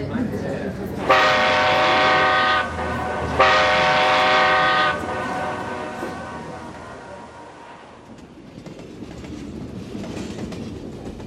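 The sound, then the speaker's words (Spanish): Two long, loud, steady train horn blasts from a passenger train boarding passengers, each lasting about one and a half seconds with a short gap between them, followed by a low rail rumble. “Como en aquellos domingos de mi infancia, este tren puede llevarme a tantos lugares.”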